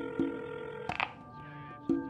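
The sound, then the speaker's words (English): A secure telephone dials a number: a steady tone holds throughout while a few sharp clicks and brief tone bursts break in at irregular points. “After a moment, he picks up a secure phone and dials a number.”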